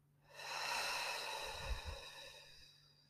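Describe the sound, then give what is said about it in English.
Slow meditative breathing, in through the nose and out through the mouth: one long, soft, airy breath with a low, breathy puff near its end, faint and with no talk. “just inhale through your nose, exhale through your mouth”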